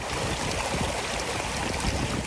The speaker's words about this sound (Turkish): Yol kenarındaki duvardan akan yağmur suyuysa adeta şelaleyi andırdı.